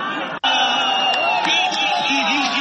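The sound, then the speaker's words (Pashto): Cricket fans shouting and cheering at the final matches in Kunar's central stadium, a loud, continuous crowd roar of many raised voices with a brief cut near the start. “د کونړ په مرکزی لوبغالی کې د کرکټ پای ته رسیدلو سیالیو ته د راغلو مینوالو د خوښیو او د خپلو لوبډلو د هڅولو لپاره د چغو او چکچکو غږونه دي.”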